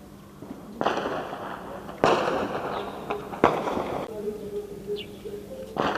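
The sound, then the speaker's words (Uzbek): Explosions and gunfire in the capital of Burundi during a military coup attempt: four loud, sharp bangs at irregular gaps, each with a rough, noisy decay, and a murmur of voices underneath. “Kecha Burundida harbiylar davlat to'ntarishi uyushtirganidan beri poytaxt Bujumburada portlashlar, o'q ovozlari eshitilgan.”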